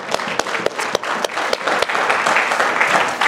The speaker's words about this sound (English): KJ got engaged on Monday, so congratulations. Wanted to give him a hand, and what a blessing.